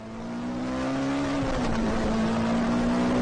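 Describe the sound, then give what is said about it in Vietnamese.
A car driving fast on a main road gives a steady, droning engine hum that swells slightly at the start, then holds with a faint waver in pitch. “Xe chạy như bay trên đường lớn. Tốc độ lái xe của anh ta rất nhanh.”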